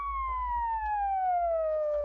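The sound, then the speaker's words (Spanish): A siren wails in one long, steady sweep that slowly falls in pitch, fairly faint over a low rumble, with no voices. “Vuelven a hacer sonar su cochina sirena.”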